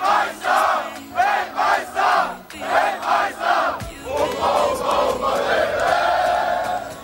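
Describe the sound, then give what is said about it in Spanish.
Football fans fill the streets of New Jersey before a World Cup match between Germany and Ecuador, chanting in loud rhythmic bursts that give way to a dense, sustained crowd roar. “Así suenan a estas horas las calles de Nueva Jersey.”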